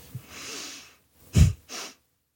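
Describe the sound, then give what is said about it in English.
Forceful exhale and inhale from a breathing exercise demonstration made into a microphone: a long soft breath, then a sharp, loud burst of air and a shorter, quieter breath. “exhale, and then forceful inhale and return to your normal breath. So if you're wondering what that sounds like, I'm going to demonstrate it into the microphone.”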